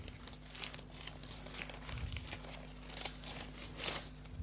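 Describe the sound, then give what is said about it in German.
Paper crinkling and tearing as an envelope is opened, a string of rustling bursts that come and go unevenly over a faint steady hum. “Okay, dann öffne ich diesen Umschlag.”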